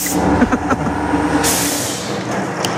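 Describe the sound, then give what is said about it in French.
An air compressor hisses as it inflates a car's front tyres in a garage. Loud, steady mechanical noise is broken by sharp bursts of escaping air. “Ah bah oui, il y a toujours un petit peu de bruit, surtout dans un garage. Et effectivement, on fait de la mécanique, on gonfle les pneus”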